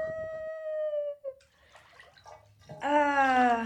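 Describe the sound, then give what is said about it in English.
Water sloshing and splashing in a warm, echoey bathtub, a few soft irregular splashes set between sustained tonal hums at the start and end. “Nice to be in the bathtub. It's warm. It is liquid. It is echoey.”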